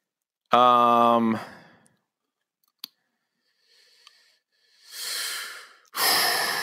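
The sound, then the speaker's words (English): Deep cleansing breaths: two long, loud, airy rushes of air close together at the end, after a short voiced hum and a sharp click. “That's a good breath right there. Yep. Cleansing breath.”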